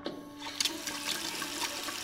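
Fresh groundwater flowing, a steady, fairly faint rushing of water with a few brief splashy bursts and no voices.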